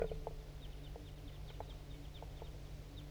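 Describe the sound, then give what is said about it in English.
A flock of crossbills calls while flying over, giving many short, faint, high chips in an irregular scatter above a steady low hum. “There goes another one. Big flock of crossbills just flew over.”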